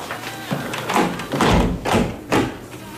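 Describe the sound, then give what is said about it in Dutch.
Windows are being closed, with a few dull thumps and knocks standing out from steady background noise. “Vensters terug dicht.”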